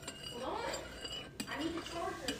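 A spoon stirring gelatin in a container, with light clinks and scraping against the sides that repeat unevenly, soft and fairly quiet.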